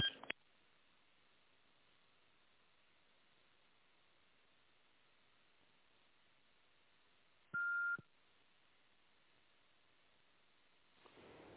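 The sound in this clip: Telephone call transfer tones on a thin, hissy phone line: a click at the start, one short steady beep partway through, then low line noise until a faint rise at the end.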